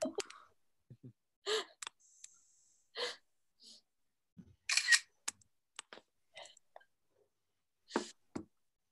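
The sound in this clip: Camera shutter clicks as a photo is taken: a few sharp, short clicks scattered among soft breathy sounds and faint vocal noises, with quiet gaps between them.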